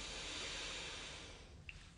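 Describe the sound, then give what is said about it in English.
A soft breath is exhaled through the right nostril during alternate-nostril breathing, a faint, airy hiss that holds steady and then fades out. “Switch fingers, exhale out of your right.”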